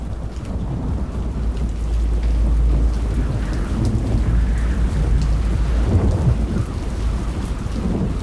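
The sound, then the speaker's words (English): Heavy rain pours steadily onto a red floor while thunder rumbles deep and continuous beneath the dense hiss of water, loud throughout with no break. “Rain pours down on a red floor.”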